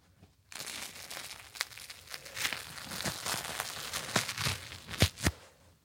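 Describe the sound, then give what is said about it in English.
A dark, crusty bakery bagel is torn apart by hand with crackling, crunchy ripping. Several sharp snaps stand out, the tearing grows busier toward the end, and the sound stays fairly soft throughout. “Just feeling the outside, it's like really nice and crusty. Okay. Now I'm going to rip Shelsky's bagel.”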